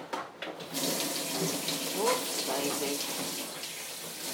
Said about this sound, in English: I hope you can hear me above the running water